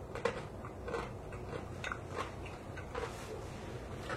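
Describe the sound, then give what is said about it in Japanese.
Crunchy chewing of rice-bran pickled daikon radish: a steady run of many crisp bites and crunches with a soft mouth sound between them, and no talk. “収録中なのに今、ぬか漬けの大根を食べてしまった。”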